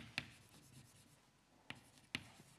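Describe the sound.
Writing on a board during a lecture: three sharp taps with faint scratching between them, all very quiet.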